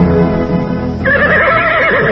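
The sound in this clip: A horse neighs loudly while being fed, a long, sustained whinny with a wavering, quivering pitch that fills the whole clip. No voices are heard.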